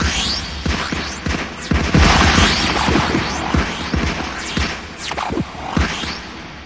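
Gunfire aimed at someone: many irregular, sharp shots and booming bursts over a continuous low hum, with some shots louder and closer together than others.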